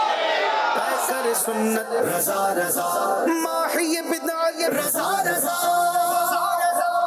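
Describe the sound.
A studio quiz-show audience chants a slogan in loud unison. The voices form a sustained, rhythmic chant with pulsing accents that continues for the whole clip.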